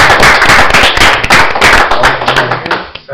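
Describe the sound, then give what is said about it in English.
Applause for a lifetime firefighter honored for 73 years in the fire service: dense, steady clapping from a crowd, holding at full loudness before thinning out just at the end. “maybe we could give him a round of applause”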